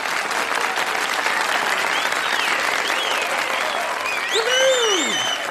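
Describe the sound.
Studio audience applause welcoming guest actor and writer David Dasmalchian, loud, dense and steady clapping throughout, with high whistles and a rising-then-falling whooping cheer near the end.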